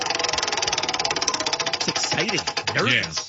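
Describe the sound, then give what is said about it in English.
A prize wheel used to pick discussion topics spins with a rapid, even ticking of many sharp clicks. A man's voice then speaks over the end of the ticking. “you want to go ahead and give it a spin? Yeah, I always go first. So let me go first again. I'm going to spin it. Here we go. Wheel of Topics.”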